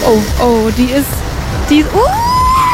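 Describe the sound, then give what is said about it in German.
A kart engine in a racing video game whines and rises in pitch as the kart accelerates, then holds a steady high tone, while a man talks over it. “Und ich würde jetzt einmal aufs Gas drücken. Es geht langsam los, ja, und dann ein bisschen schneller, okay.”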